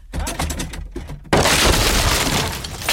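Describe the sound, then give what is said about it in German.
A door being kicked in: a few heavy thuds, then a sudden loud crash with breaking, splintering noise that keeps rumbling to the end. “Sie haben die Tür eingetreten.”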